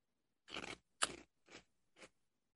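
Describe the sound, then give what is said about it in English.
Crunching bites of barbecue flavored pork rinds, four crisp, crackling chews in an uneven rhythm, quiet and alone. “if you can hear me crunching in your ear, I'm eating barbecue flavored pork rinds”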